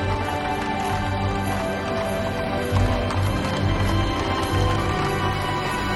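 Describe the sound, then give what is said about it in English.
A horse-drawn carriage with a single horse moves along with steady clip-clopping hooves, set inside a dense, continuous background wash of sound. “Then, she blinks in disbelief as she watches the carriage pull up in front of her. The driver gently tugs the horse's reins. The carriage stops”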